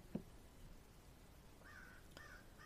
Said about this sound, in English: the crow agrees with me. You hear the crow outside?